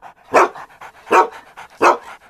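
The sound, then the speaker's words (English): An aunt's dog barks three loud, evenly spaced times, with softer breathy huffs and snorts between the barks and no voices. “He's my aunt's dog.”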